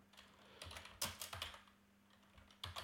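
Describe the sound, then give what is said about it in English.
Typing on a computer keyboard: many faint, irregular key clicks, some closely bunched, with short pauses between runs and no voices. “In order to not do spoilers for this film, I will just type in my question.”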